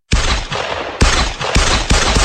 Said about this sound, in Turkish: tetiğe bastı. Ard arda sıktı. Kasklı saldırgan site başkanımızın bulunmuş olduğu odaya girip iki el ateş açıp olay yerinden ayrılıyor.